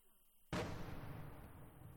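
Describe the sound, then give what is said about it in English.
A pro-Russian artillery piece near a village fires outgoing, and the boom breaks out of near quiet as one sudden, loud blast, then trails off into a long, rumbling decay. “The boom of outgoing fire, a pro-Russian artillery piece, can't be far from the village.”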